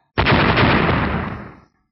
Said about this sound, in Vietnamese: Tiếng nổ lớn vang ra